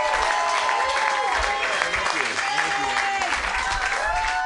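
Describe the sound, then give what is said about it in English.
Audience applause and some cheering at the close of a headlining comedy set, a sustained wash of clapping with voices over it. “The clapping keeps happening for Andy Picaro.”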